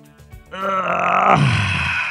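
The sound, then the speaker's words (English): A man groans with effort as he gets up: a long, strained, voiced moan that swells after a few soft sounds and sinks lower in pitch toward its end. “You know what that sound is? That's the I gotta get up.”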